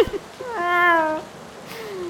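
A tomcat gives one clear, drawn-out, mid-pitched meow, followed by a fainter, lower, trailing sound.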